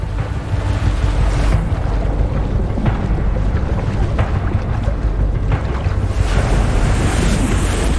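Ocean surf and tide wash continuously with loud, broad roaring waves and gusting wind, with no pause across the whole stretch.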